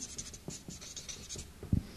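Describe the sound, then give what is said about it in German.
Soft scratching of a pen writing something down on paper, a few short, faint strokes in quick succession with a light tap near the end. “ich schreibe mal viele Schultern hin.”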